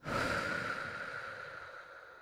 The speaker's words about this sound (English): I'm going to breathe in through your nose and then exhale through your mouth.